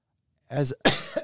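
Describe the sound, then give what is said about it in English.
A man still getting over a cough gives a couple of short, harsh coughs in quick succession after a brief silence. “just getting over a little bit of a cough too”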